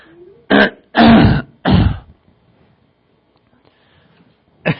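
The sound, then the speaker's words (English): Someone clears their throat in three harsh, loud bursts close together. A pause of near silence follows, then a fourth short rasp right at the end. “Get out of my throat, Satan.”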